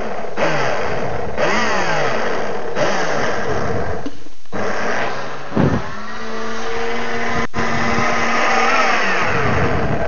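A blender pulses, its motor whirring loudly and steadily with a few brief drops in power between bursts, while olive oil is being blended.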